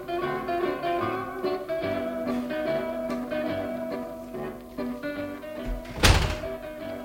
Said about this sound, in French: La porte de la prison s'était à peine refermée sur moi